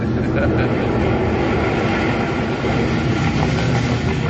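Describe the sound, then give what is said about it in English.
An airplane's engines roar steadily as it lands and taxis along the runway on arrival in London. The sound is a dense, unbroken rumble that stays loud for the whole stretch. “There we are, on the ground again, pulling right up the runway. In a moment, you can loosen your seatbelts.”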